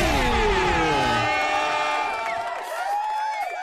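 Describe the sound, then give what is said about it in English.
A canned applause sound effect played from a button: a crowd cheering and whooping, with loud, sliding voice tones that thin out toward the end. “I hit this applause button way too early. But it's alright, because everyone's happy we're here.”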